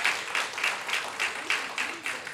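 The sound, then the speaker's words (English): Congregation clapping hands in church, a quiet, steady rhythm of about nine claps in unison, each beat short and crisp with even spacing throughout. “Would you give a hand clap to the Lord for what He's saying to us, to you and to me?”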